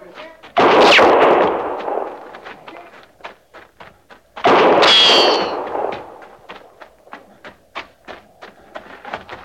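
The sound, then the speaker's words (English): Two loud gunshots, fired at a horse in a radio drama, each a sharp, heavy blast that rings out into a long fading tail, several seconds apart. “The shotters. The shotter, they got no call to do that. Now, she's as much army as we are. No reason for him shooting a horse.”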